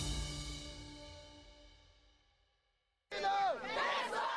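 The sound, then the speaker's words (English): Crowd chanting 'glory to the armed forces' as Ukrainian soldiers are welcomed into Kherson after the Russian withdrawal. A loud surge of many voices bursts in after a fading musical tone and a short silence. “We start with the sounds of celebrations, and Kherson is Ukraine, as soldiers are welcomed into the southern city after Russia said it had fully withdrawn. Troops were met with chants of glory to the armed forces,”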